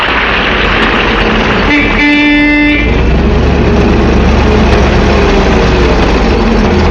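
A large car's engine rumbles steadily and loudly, broken by a short, bright horn blast early on.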